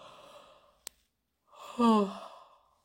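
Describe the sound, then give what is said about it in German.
Deep yawning breaths in a guided yawning exercise: first a soft, breathy exhale and a brief click, then a drawn-out voiced yawn with a sighing tone that fades away. “um immer mehr ins Gähnen reinzukommen. Und wenn du jetzt schon gemerkt hast, schon ein paar Gen-Atemzüge geschafft, dann bleib jetzt dran und mach weiter. Geh noch einmal ganz tief.”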